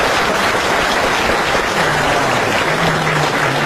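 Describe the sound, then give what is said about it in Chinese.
Dense audience applause at a stage comedy show in 2018, steady and loud throughout with no single voice standing out. “你要是再不唱，你是不是嫌大伙掌声不热烈呀？可以热烈是吧？”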